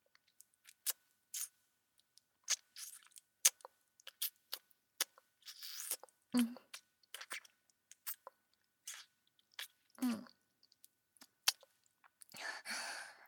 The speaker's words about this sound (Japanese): こぼれちゃうじゃない。もったいないから舐めてあげる。